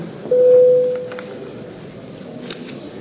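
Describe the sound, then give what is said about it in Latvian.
An electronic bell signal sounds in a parliament chamber to call a vote: one steady mid-pitched tone of about half a second that rises sharply and then fades into low room hum. “Tātad lūdzu zvanu.”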